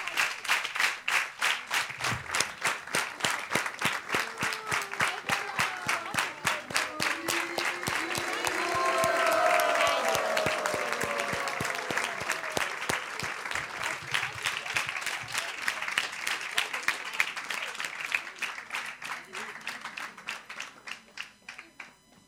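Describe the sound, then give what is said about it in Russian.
An audience claps for little children, a dense, steady applause that lasts the whole stretch, swells slightly toward the middle and thins near the end, with some voices faintly mixed in midway. “So let's give a big clap for the little children.”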